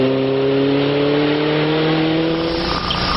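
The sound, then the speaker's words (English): A 2-litre five-speed Alfa Romeo Spider engine drones loudly and continuously, its tone climbing slightly as it revs, then shifting abruptly just before the end. “The 2-liter five-speed Alfa Romeo spider. It's summer on wheels.”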